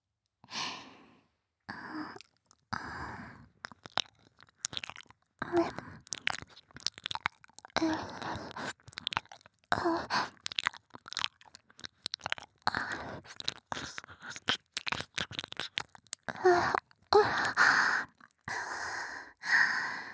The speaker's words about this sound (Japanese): 私の耳舐めで頭の中が空っぽになるくらい癒されちゃってくださいね。